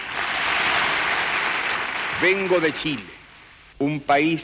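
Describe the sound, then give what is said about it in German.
Applause from the UN General Assembly greeting Chilean President Salvador Allende in December 1971: sustained, dense clapping for about two seconds that then thins out as a voice begins speaking in short phrases. “Als Präsident Allende am 4. Dezember 1971 vor die UN-Vollversammlung trat, wurde er mit Ovationen begrüßt.”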